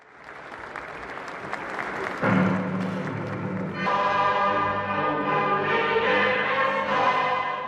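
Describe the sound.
Applause in Iran's parliament at a nuclear technology day ceremony: dense steady clapping at first, then sustained tonal music of the national anthem swells in and carries on over the continuing clapping.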